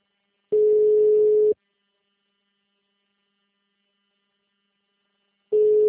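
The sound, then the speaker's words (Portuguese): A voicemail system sounds its recording signal: two identical steady mid-pitched beeps, each about a second long, separated by roughly four seconds of silence, with the second beep cut off at the end. “Você só será tarifado após o sinal.”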